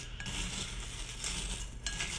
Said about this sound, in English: So, mixing up my cereal with the blueberries.